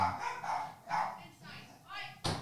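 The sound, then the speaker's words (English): Several dogs bark indoors in a string of sharp barks and yips, with some whimpering in between, then a final abrupt bark. The calls are moderately loud and irregular in rhythm. “Excuse my dogs. Don't they know that I'm recording?”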